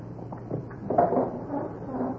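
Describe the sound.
A door is pushed shut with a faint, muffled knock and clunk near the middle, amid low handling noise.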